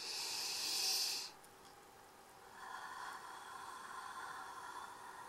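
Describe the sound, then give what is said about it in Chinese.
A deep breath drawn in with a bright hiss, followed by a longer, softer exhale through the mouth; faint, with no talking. “用力吸气，从嘴巴呼气。再来一次”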